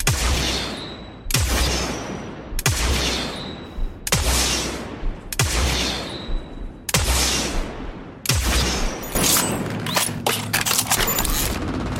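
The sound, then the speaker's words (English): Video game weapon firing: seven loud, sharp blasts at a steady pace, then a dense stretch of crackling, buzzing, mechanical reload noises with a techie, hive-like character. “that was a good example of the weird reload, how it has some really strange noises, very techie sounding noises, very hive-like sound with the reload.”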